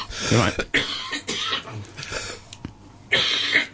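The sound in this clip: A person coughs in a room, a few harsh, loud bursts spread unevenly with short throat-clearing sounds between them.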